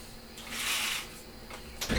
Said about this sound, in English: Opening the blinds is more realistic.